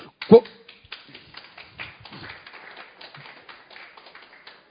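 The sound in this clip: Sparse, half-hearted applause from a church audience during a pastor's sermon: one sharp knock at the start, then many faint, irregular claps scattered through the rest, soft and thin throughout.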